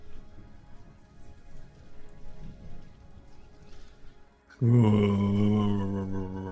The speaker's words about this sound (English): It's raining still.